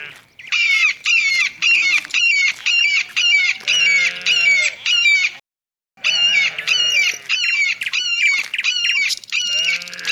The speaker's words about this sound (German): siehst du den Vogel dort oben? Komm mit, wir laufen ihm nach.